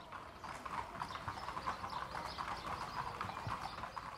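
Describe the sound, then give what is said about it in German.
Hooves of a racing mare clip-clop as she is ridden in training, a steady, continuous rhythm of many quick hoofbeats at a fairly low level, with no talk. “die Stute, die ich jetzt hier im Training reite”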